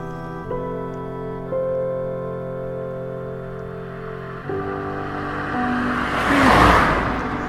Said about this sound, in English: Blue, a small BMW. Diesel, maybe a 3 Series.